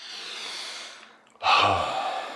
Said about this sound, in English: Take a deep breath.